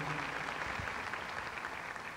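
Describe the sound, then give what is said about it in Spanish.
Audience applause for an orchestra at a live concert: a dense, steady wash of clapping that holds at an even level for the whole stretch, with no voices rising above it. “Un aplauso para la orquesta, por favor.”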